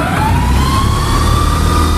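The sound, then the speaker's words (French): The air compressor of a 1974 electric locomotive starts up in the cab. It is a loud, steady mechanical rumble with a whine that climbs slowly in pitch throughout. “Je vais pouvoir monter le pantographe, et là, je mets en route le compresseur.”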